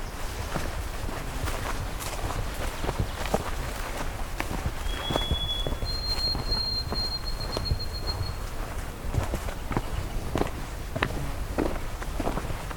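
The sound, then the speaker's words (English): Footsteps of a person hiking more than three hours along a trail make a steady run of soft, even steps over constant outdoor background noise. “Okay, I'm gonna continue on. It's been more than 3 hours now of hiking.”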